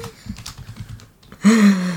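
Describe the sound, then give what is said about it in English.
Frantic typing on a computer keyboard, a quick, fairly loud run of light key clicks lasting over a second before a voice starts talking. “I'm frantically typing because I'm trying to do you a higher lower.”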